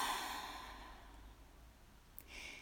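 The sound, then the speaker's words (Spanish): A deep, slow breath taken during a guided breathing exercise, a soft airy rush that is loudest at the start and gradually fades, with no talk. “abriendo con un ciclo de respiración, inhalando profundamente por la nariz y exhalando suavemente y completamente todo el aire por la boca”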